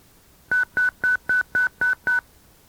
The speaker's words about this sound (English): As with the auto patch, briefly keying your mic during either pause causes the controller to dial.